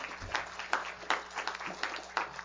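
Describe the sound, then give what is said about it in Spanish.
Faint, scattered clapping rises from a church audience applauding singers who performed without instruments, with uneven bursts of claps over a quiet background. “Mis hermanos, qué bonito cantan, ¿eh? Dense un aplauso a todos ustedes, ¿eh?”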